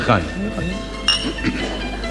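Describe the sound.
Glasses clink together in a toast, a brief bright ringing chime rising over people talking around a table.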